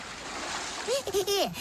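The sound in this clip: A splash as two creatures jump into a cold stream. The splash is short and noisy, with a brief high, voice-like squeal that rises and falls near the end.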